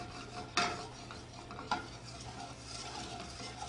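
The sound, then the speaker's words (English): Butter browning in a moving pan: a faint, steady sizzle with a couple of brief scraping clinks as the pan is swirled. “Just keep the pan moving in French, this is called a beurre noisette, and noisette actually stands for hazelnut in French, so usually brown butter tastes like hazelnut.”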